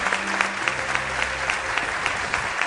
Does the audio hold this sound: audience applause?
yes